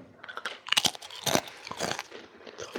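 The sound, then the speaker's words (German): Crackers being eaten, with a few sharp, crisp crunching bites clustered in the first half and softer chewing and crackling continuing after them. No talk is heard. “Ich trinke in der Zeit noch ein paar Cracker, ne?”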